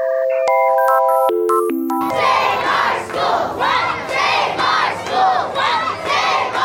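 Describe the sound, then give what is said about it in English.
A short sequence of electronic beeping tones opens, then a crowd of children, parents, teachers and politicians rallying outside Austin City Hall breaks into loud, rhythmic chanting. The chant repeats in regular bursts of many voices. “That was the sound of children, parents, teachers, and politicians rallying outside Austin City Hall this week, trying to plead with the Austin School District's Board of Trustees not to vote to close four campuses.”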